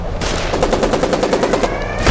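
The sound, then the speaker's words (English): Video game gunfire: a rapid automatic burst of evenly spaced shots, a brief pause, then more firing at the end. “Yeah, shoot him. We're fine. Shoot him. Get out of the way. Okay. Just shoot him.”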